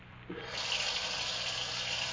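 Cold water poured and splashed onto the face and eyes: a soft tap, then a steady rushing hiss of running water that continues alone to the end.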